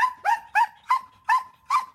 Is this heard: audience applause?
no